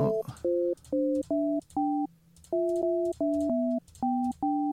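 Electronic telephone tones sound while a made-up number is dialed: many short, steady beeps of shifting pitch, loud and clear, in an uneven rhythm with brief gaps between them.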